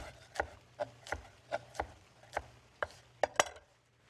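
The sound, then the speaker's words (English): A knife briefly chops baby spinach on a board with a quick series of crisp, sharp strikes spaced unevenly, with the last two close together, heard alone without talk. “Going to use a little bit of baby spinach just to add a little bit of greenness to it. I'm just going to chop this up as well briefly just to give a bit of greenness.”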